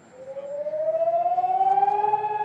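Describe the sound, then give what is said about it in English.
A civil defense siren sounds on Holocaust Remembrance Day in Israel, a loud wail climbing steadily in pitch with a slight pulsing throb, heard alone without talk. “Every spring on Holocaust Remembrance Day, a wailing siren signals people all over the country to stop driving, talking, whatever they're doing, for 2 minutes of reflection.”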